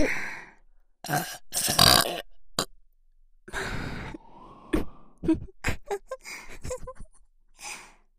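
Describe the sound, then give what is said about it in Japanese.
A person burping: a few throaty belches mixed with breathy sighs and grunts, in bursts of varying loudness separated by short silences. “ほら、ゲップ来る。”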